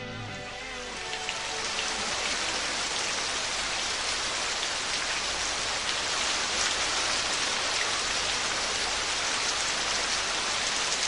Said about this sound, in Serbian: Ajde, molim te, daj nam malo kiše pre nego što nastavimo s emisijom.